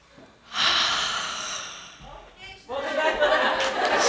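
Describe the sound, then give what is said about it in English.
Deep breath drawn in by a group at a gathering: a long, loud breathy rush of air, then a short pause and a second sustained airy surge. “let's all take a deep breath in.”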